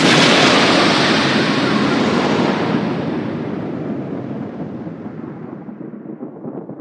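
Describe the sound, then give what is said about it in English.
Explosion sound effect: a loud, broad boom whose roaring rumble slowly fades away over several seconds. “If you say Banksy 3 times in a row, then he explodes.”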